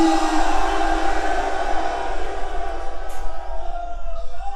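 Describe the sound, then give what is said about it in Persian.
A crowd shouts the Heydari roar, a 'Ya Ali' battle cry, with many voices holding one long, loud, sustained shout that gradually thins and fades toward the end. “هر چی نفس داری خرج کن یا علی. نعره حیدری.”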